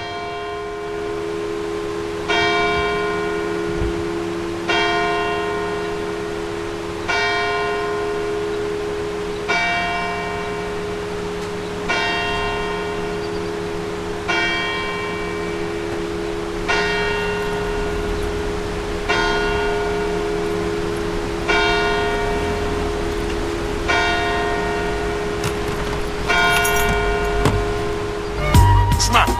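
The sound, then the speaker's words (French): Church bell tolling in the village of Saint-Julien in France's Pilat regional park, struck in a slow, evenly spaced series of bright, ringing strikes about every two and a half seconds, each decaying over a steady low hum. “J'ai essayé d'aller collecter le son des cloches d'église pour essayer de comprendre comment elles s'organisent dans le territoire, chacune avec sa sonorité propre.”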